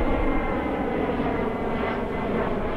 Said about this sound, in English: Directly overhead, jetliners descend into Logan.